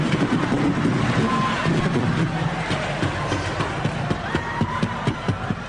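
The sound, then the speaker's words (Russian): A person tumbles down a flight of stairs, with irregular thumps and bumps scattered through a rough, noisy bed of sound, and voices heard alongside. “Иисус, Господь Всевышний, помоги мне, я падаю по лестнице.”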